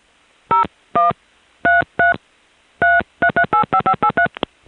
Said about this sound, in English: This recording begins with my dialing pound to disconnect the previous call, and then I get to dial another call on the same calling card.